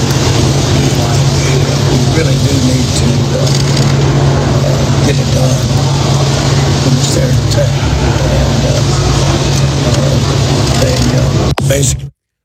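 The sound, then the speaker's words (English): A Harley-Davidson motorcycle engine rumbles loudly and steadily at a constant low pitch under a broad, noisy roar, then cuts off abruptly at the very end. “They got him on the back of a motorcycle. Even John started the Harley.”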